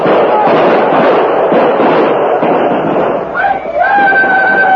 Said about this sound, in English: You see? They didn't expect that volley.